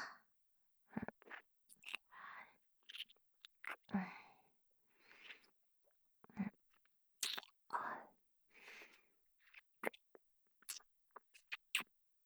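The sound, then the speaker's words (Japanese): Wet mouth sounds of a girl eating ice cream after tiring club activities. Many soft smacks, licks and bites come in an irregular pattern, quiet and isolated, with no talk. “とりあえずアイスでも食べるか。”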